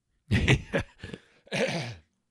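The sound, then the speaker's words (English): Phlegmy throat clearing and coughing come as a few harsh, rasping bursts. The last one is longer and drawn out, and no talk is heard around them. “Sorry for that disgusting phlegm attack.”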